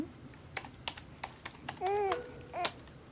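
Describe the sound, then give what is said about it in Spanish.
A child typing on a computer keyboard: a few sparse, faint keystrokes at irregular intervals, with brief babbling from a young child in the middle and near the end. “está terminando de teclear”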